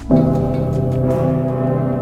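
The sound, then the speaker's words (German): The great church bell of Cologne Cathedral rings with one deep strike, then a long, low, humming tone that holds steady and full without fading much. “Der dicke Pitter, eine der weltbekanntesten Kirchenglocken der Welt in einer der weltbekanntesten Kirchen der Welt im Kölner Dom”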